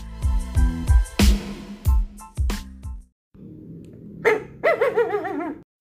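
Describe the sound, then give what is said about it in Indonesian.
A golden-coloured pet dog, nine years old and about 125 cm tall when standing, barks loudly several times in quick succession, then gives a high, wavering whine. “Ciri-ciri anjing saya adalah warnanya golden. Kalau dia berdiri, tinggi dia sekitar 125 cm.”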